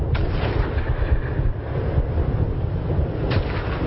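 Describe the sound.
Heavy artillery fire from big guns forms a dense, continuous low rumble, with a couple of sharper reports breaking through near the start and end.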